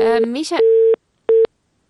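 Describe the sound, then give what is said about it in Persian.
A busy signal after a listener's phone call to a radio show dropped: brief speech, then two steady beeps of one mid-pitched tone, the first longer, with silence between and after. “متاسفانه که تماس ما با آقای رفعت قطع شده”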